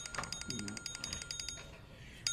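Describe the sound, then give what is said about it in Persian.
A mobile phone ringtone: a fast, steady, high-pitched electronic trill pulsing at a regular rhythm, then thinning out toward the end over low background noise. “تلفنم زنگ خورد.”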